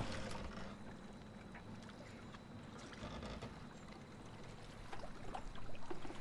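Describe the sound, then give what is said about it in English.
Water seeping and sloshing into a slowly sinking boat, a faint, steady wash with small irregular splashes that grows slightly louder near the end, with no voices. “which is slowly filling with water. Simon and Matt follow suit. They all look hopeless. The water continues to seep in.”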